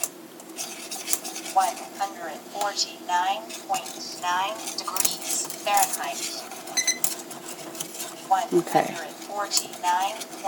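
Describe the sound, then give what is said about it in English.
A wire whisk works around the bottom and sides of a pan in small circles, giving quick metallic scrapes and light clinks that repeat under a person talking. “Whisk, whisk, whisk. All over, around in little circles, all over the bottom of the pan. Making sure the sides are gotten.”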